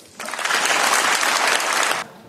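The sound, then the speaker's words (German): A burst of applause for Mark Carney in the European Parliament in Strasbourg starts abruptly, holds dense and even for about two seconds, then cuts off sharply. “Ja, es gab viel Applaus für Carney in dem Europäischen Parlament in Straßburg.”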